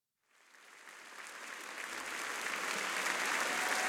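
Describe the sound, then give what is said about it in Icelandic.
Live applause from a group of people clapping. It rises out of silence and swells steadily into a full, dense wash of claps by the end. “Við erum að klappa Býtu, þetta er live”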